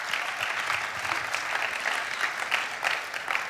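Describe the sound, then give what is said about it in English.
Audience applause welcoming a speaker onto the stage: dense, even clapping from many hands, sustained at moderate loudness throughout with no voices over it. “So let's put our hands together and give Michelle a warm welcome.”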